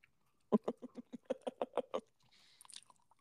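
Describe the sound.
Someone chews a chocolate glazed donut in a steady, rhythmic run of many soft, moist chews, followed by a brief higher rustling noise.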